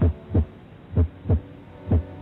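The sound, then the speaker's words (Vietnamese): A heartbeat thumps in low, muffled double beats, a few lub-dub pairs in a steady, fairly quick rhythm, with a soft hum between them and no voices. “Tôi ngồi đó mà tim tôi đập liên hồi. Tôi cảm giác nghe rõ tiếng trái tim của mình đang đập để chờ câu chuyện của bác gái.”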